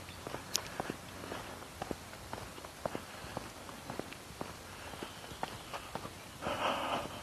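Jogger's running footsteps: many quick, evenly spaced footfalls, quiet throughout, with a brief broad swell of noise near the end.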